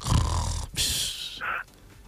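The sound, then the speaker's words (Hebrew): A voice imitates a wife snoring with a short run of rasping, snorting breaths: a rough, throaty snore followed by a hissing exhale and a brief nasal snort, moderately loud. “אשתו בשעה כזאת נוחרת.”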